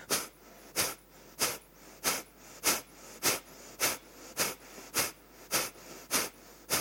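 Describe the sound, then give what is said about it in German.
Kapalabhati rapid breathing exercise: a long series of sharp, forceful exhalation bursts in a steady, even rhythm, each a short breathy puff with quieter gaps between, with no talking. “Kapalabhati ist eine schöne Atemübung, um Ängstlichkeit zu überwinden und dir Kraft zu geben.”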